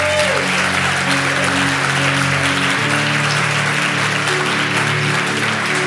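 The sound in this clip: Church audience applause welcoming a visiting bishop and his grandson: loud, steady clapping over sustained instrumental chords that shift partway through.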